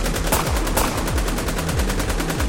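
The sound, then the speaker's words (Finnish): Machine gun fire crackles in a dense, rapid stream of shots, loud and unbroken across the whole clip, with no voices, set in an audio drama scene where armed men open fire. “niin ei kun kuularuiskulla lasketaan perään”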